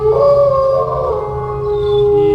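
A wolf howling: one long, loud, sustained tonal cry with a clear, steady pitch that holds for the whole stretch, heard alone.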